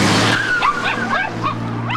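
A Mercedes car braking sharply on a road, with a thin high-pitched tyre screech that wavers briefly over a steady low engine hum, followed by a few faint short chirps.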